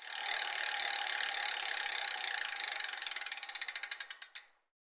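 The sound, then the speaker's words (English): A prize wheel with six items spins and its ratchet clicks rapidly at first. The clicks gradually slow into distinct, spaced ticks and then stop abruptly near the end. “Yeah, we got to spin a wheel. Got 6 items on the wheel.”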